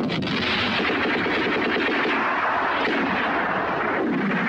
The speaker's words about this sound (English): Loud mortars! In the desert, British troops fire mortar shells at the Germans.